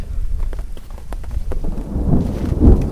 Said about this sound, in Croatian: Pre nego što se pojača kiša i grmljevina, požurit ću da vam rečem ono osnovno